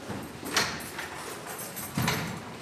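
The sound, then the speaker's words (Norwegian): A door to a huge meeting room being locked, heard as a few faint, dull clunks and knocks spaced apart over a low background hush. “Vår vert låser oss inn i et gedigent møterom.”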